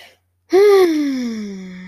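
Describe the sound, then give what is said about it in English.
A deep, voiced inhale like a gasp bursts in after a short silence, then draws out as one long breath whose pitch slides steadily downward, loud and alone. “That's a deep inhale.”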